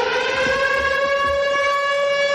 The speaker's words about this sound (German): Vermisst man nicht die Sirene?